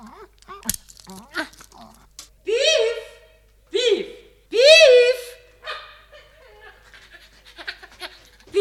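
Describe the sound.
Dog sniffing and panting over a pile of bones in a children's audio tale, with a few short whining, yelping cries and soft crunching between quicker snuffles.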